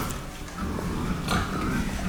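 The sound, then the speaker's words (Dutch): Pigs grunt in a stall on a farm, with low, rough grunts and snuffles blending into a constant noisy bed. No one speaks. “Kijk, dit zijn ze. Dit zijn de varkens.”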